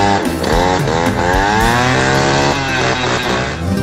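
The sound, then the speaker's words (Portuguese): A jet ski engine runs loud and continuous, a buzzing, droning whine whose pitch wavers up and down as the throttle changes. “Tô andando de jet ski, escuta o barulho aí, ó.”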